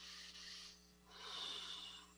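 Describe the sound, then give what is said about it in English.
Two soft, airy breaths drawn and released as part of a guided breathing exercise, with a brief pause between the breathy swells and no talking. “Take a breath.”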